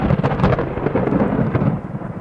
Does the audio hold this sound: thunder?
yes